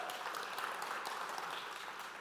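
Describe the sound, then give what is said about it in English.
Audience applause for a band after a song at a morning worship gathering: faint, steady crackling of many hands clapping, sustained evenly throughout. “You are free to give them a round of applause.”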